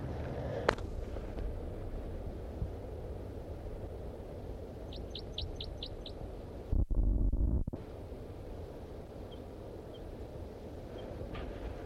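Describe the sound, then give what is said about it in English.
Birds back at their nest tree, one perched in a deciduous tree beside it, give a quick run of five thin, high chirps over steady wind-like background noise. A brief loud burst of rumbling noise follows. “the birds are back after a 20-minute departure, and the male is just perched in that deciduous tree right next to the nest tree”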